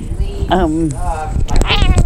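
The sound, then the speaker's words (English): A cat meows after getting caught on a microphone cord. Two clear, tonal meows rise and fall in pitch over a steady background. “She was caught on my microphone cord, but that's okay. You know, made her meow”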